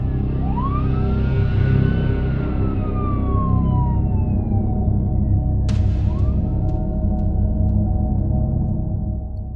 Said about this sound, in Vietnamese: Toản, cho tới khi tiếng còi hú vang của cảnh sát làm mờ đi mọi thứ.